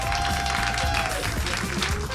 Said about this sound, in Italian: perché questa sera ci sono i Comedian per Gaza e vorrei un altro applauso.